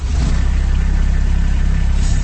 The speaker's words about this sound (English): That's the sound of a Kubota RTV utility vehicle.